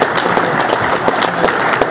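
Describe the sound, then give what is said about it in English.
Audience applause for an evening event's sponsors: loud, dense clapping from a crowd, sustained and steady without pause. “So how about a round of our applause for our sponsors?”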